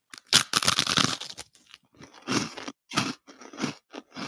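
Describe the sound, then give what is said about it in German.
Crunching of dry Zwieback rusks being bitten and chewed: many crisp, brittle crunches in quick bursts, with short pauses between mouthfuls and no talk. “Bitte greif zu. Ja, sie wollte mal öfter Zwieback essen, jetzt, jetzt muss sie.”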